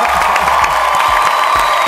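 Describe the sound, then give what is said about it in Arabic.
Cheering and applause from a crowd reward a contestant's correct answer in a quiz game. The clapping and whoops form a loud, steady wash across the whole clip, with no pauses. “صفقة لعبد الله.”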